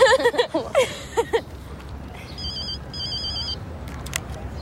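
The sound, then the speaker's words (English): A telephone rings in two short electronic bursts of warbling tone, following a few brief vocal sounds at the start. “If I let it go through, it'll go to voicemail, and he'll know I called. And answer it.”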